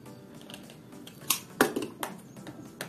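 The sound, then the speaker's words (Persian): Box of a Redmi Note 12 Pro phone being handled and opened: a few sharp plastic clicks and crisp snaps over a faint, continuous rustle of packaging. “ردمی نوت 12 پرو. خب این الان تصویرش رنگش مشکیه، ولی رنگش رنگ خیلی خاص و دوست داشتنیه و خب بریم بازش کنیم.”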